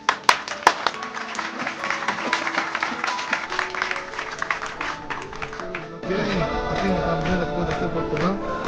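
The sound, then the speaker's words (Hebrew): Audience clapping at a religious gathering with a rabbi: many dense, irregular claps that hold steady, then grow fuller and louder in the last few seconds as voices rise together over them. “כפיים, תנו לו!”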